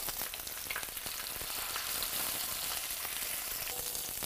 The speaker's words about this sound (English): Now we cook this on medium to make the skin a nice color.